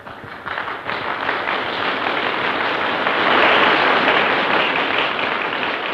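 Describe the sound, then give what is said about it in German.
Applause breaks out at a 1930s ceremony at a broadcasting house. The clapping starts hesitantly, swells to a dense, steady peak midway and then stays strong. “Ein langes Schweigen. Traut sich keiner zu klatschen. Und dann kommt doch Beifall auf.”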